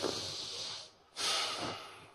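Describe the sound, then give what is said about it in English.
A deep breath is taken: two long, airy breath sounds, likely a slow inhale and then an exhale, separated by a brief pause. “So let's all get a big breath”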